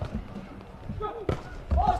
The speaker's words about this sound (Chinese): 南京市队来发球